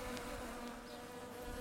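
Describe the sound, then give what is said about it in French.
Flies buzzing inside a house make a faint, continuous droning hum that wavers slightly in pitch and holds steady throughout. “Il a l'impression que les mouches dans la maison bourdonnent de plus en plus fort.”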